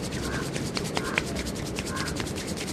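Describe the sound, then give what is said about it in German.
Steady, even rubbing of hands on skin as masseurs dressed in white work herbal oils into a pale body in a warm, half-dark room. The soft friction continues without break. “Wir betreten einen halbdunklen, warmen Raum. Weiß gekleidete Masseure reiben einen bleichen Körper mit Kräuterölen ein.”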